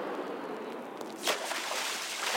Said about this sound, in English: What are you doing? Landing on the water? The island is over there.